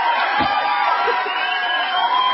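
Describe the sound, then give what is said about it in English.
Crowd noise with cheering and scattered whoops, a thin, muffled roar that stays fairly even throughout with a brief low thump near the start. “Do we have some applause back there in Minneapolis?”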